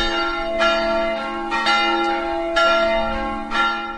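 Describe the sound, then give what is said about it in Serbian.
Church bells ring from a village church, sounding loud and alone, with a bright, sustained metallic hum. About four fresh strikes land roughly once per second over the lingering ring. “Zvuk zvona Deščanske svetinje, dakle, dopirao je do Novog Svetog Ivana, ali čuli su ga i u Morahalomu, Deski i Kalazu.”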